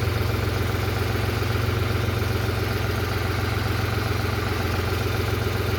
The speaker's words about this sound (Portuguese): Esse era o barulho de dentro da cabine do caminhão dele.